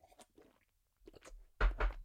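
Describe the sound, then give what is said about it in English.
A voice imitates a supervisor chomping and eating, making short bursts of wet smacking and crunching mouth noises that grow louder toward the end. “The supervisor is chomping, eating, okay?”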